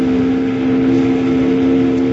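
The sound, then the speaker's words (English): A steamboat whistle blown by pulling the whistle cord gives a steady, sustained tone that holds unchanged throughout, over a constant noisy rumble, with no voices. “grab that whistle cord and pull it”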